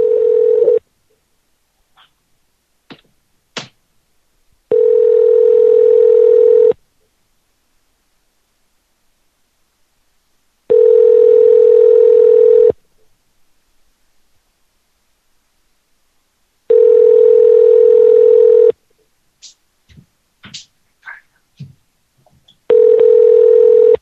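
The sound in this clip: A telephone line tone sounds while a call is placed: a steady, pure mid-pitched tone comes in repeated bursts of about two seconds, separated by long silent gaps that hold a few faint clicks and short beeps.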